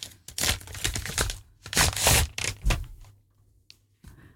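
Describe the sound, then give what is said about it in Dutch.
Wrapping paper crinkles and tears as a gift is unwrapped, in several loud bursts of rustling separated by short pauses. “Mag ik het uitpakken? Ja. Ik ben echt heel nieuwsgierig.”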